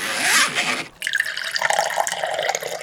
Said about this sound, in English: Filling up swimming pools.